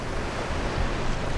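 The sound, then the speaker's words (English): Tidal floodwater splashing onto the sidewalk of a flooded street intersection in Norfolk, Virginia, as cars drive through, making a continuous rushing, surf-like wash that swells slightly toward the end. “It's the sound of tidal water crashing on the sidewalk of Llewellyn Avenue in Norfolk as drivers plow through the flooded intersection.”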